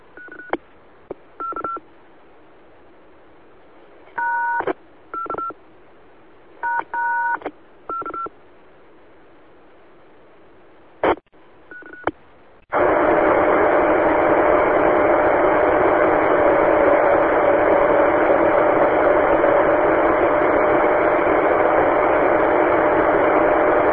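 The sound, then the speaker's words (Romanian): An amateur radio call: a series of short, sharp tone bursts, spaced irregularly over about twelve seconds, then a sudden steady, loud hissing band of signal with a faint sustained tone running through it to the end. “o reflexie care durează aproape 2 secunde și o să auziți cum sună”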